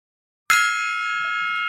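One strike on a small gong used as a segment marker, with a sharp metallic attack followed by a bright, steady ringing tone that sustains without fading for over a second.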